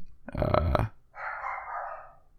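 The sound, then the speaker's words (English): A small chihuahua barks once in a short, rough, loud burst, followed by a quieter, breathy, noisy sound lasting about a second. “my dog's barking. I know, one of your two little chihuahuas.”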